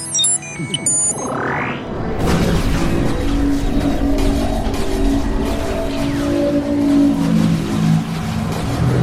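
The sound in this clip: A sci-fi spaceship takes off from Mars: electronic beeps and a rising whine build into a loud, sustained engine roar layered with droning tones.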